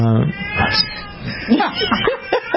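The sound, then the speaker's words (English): A deaf cat meows loudly, letting out several strained, drawn-out yowls in quick succession with wavering pitch. “I think your cat needs attention. Oh, my goodness. That is the loudest cat.”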